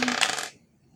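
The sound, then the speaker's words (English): Dice rolling on a table during a tabletop role-playing game: a quick, bright clatter of about half a second that stops abruptly and leaves near silence. “Why do I roll these damn elven dice?”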